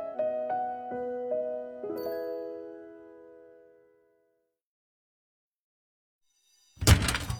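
A fire escape door opening as an audio drama effect: one heavy, loud thud near the end, after a few fading musical tones and a stretch of silence.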